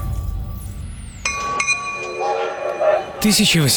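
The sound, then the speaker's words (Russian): Train sounds at the Mount Clemens railway station near Detroit in 1862: metallic clinks and clanks over a rumble, with tonal whistle-like notes and a louder burst of horn tones at the end. “1862 год. Америка. Железнодорожная станция Маунт-Клеменс, недалеко от Детройта.”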